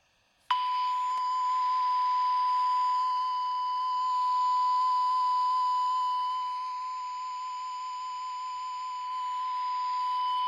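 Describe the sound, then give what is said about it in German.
A steady electronic beep tone starts abruptly and holds as one continuous, unbroken high-pitched note for about ten seconds, fairly even in loudness throughout. “sehr viel Information ist hier drin, in der kleinen Nuance von dem Piepston.”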